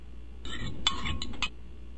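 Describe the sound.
A metal spoon stirs a concoction inside a jar, giving a few bright, sharp clinks against the glass over about a second, with quieter scraping between them.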